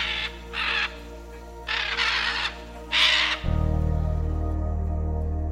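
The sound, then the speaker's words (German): Harsh, raspy screeches from a group of scarlet macaws overhead come in three separate bursts, followed by a loud, steady low drone that continues to the end. “Aber dann höre ich endlich über mir die markanten Schreie einer Gruppe von Aras, der Scarlet Macaw.”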